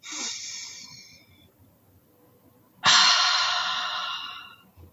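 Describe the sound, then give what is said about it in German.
A deliberate deep breath with no talk: a softer airy breath, a pause, then a much louder, longer rushing breath that slowly fades. “I walk the talk mit einem ganz bewussten Atemzug. Wer will, kann mitmachen.”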